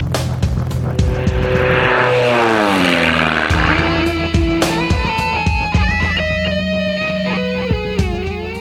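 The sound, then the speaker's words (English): An airplane taking off, with a loud, steady engine drone whose tonal harmonics bend and shift in pitch throughout, heard alone without talk. “Flight experience 556, you're cleared for takeoff. Imagine sitting in a pilot's seat”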